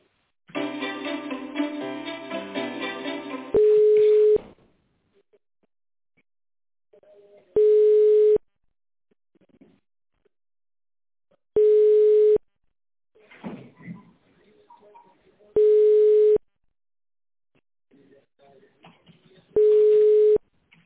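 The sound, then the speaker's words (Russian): A telephone ringing tone sounds while a call is being connected: five steady, even beeps spaced about four seconds apart, with a brief tinny passage before the first and faint scattered noises between them. “Давайте я вас попробую соединить.”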